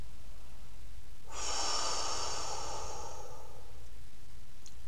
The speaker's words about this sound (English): Hold and then slowly breathe out through your mouth.